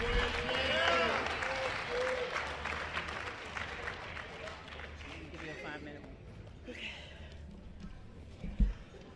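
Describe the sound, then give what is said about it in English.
Audience applause welcoming a speaker at a meeting: dense, loud clapping with a few cheering voices, tapering off after about six seconds into quieter scattered sounds and a single thump near the end. “introduce our first speaker, and that will be Gigi. Give a warm welcome, y'all.”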